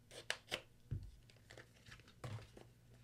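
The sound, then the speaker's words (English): A package being torn open: faint crinkling and crackling of wrapping, broken by a few short, sharper rips and rustles, with no one speaking. “Is this package really that hard to open? Do I have to cut this off?”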